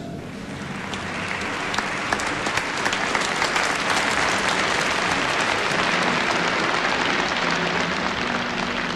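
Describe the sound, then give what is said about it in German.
Standing ovation from delegates in an audio drama: dense, sustained applause that holds at an even loudness throughout, with no voices above the clapping. “Die Delegierten erheben sich von den Sitzen. Sie bringen Mosche stehend eine Ovation dar.”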